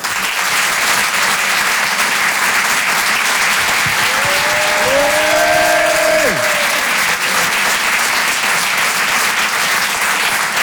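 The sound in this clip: Audience applause at a comedy club greeting a performer: loud, continuous clapping throughout, with a few brief whistle tones in the middle.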